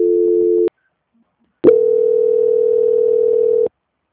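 Telephone line tones during a call transfer: a short dual-pitched tone, about a second of silence, then a loud, steady single tone lasting about two seconds. The tones sound alone, with no talk.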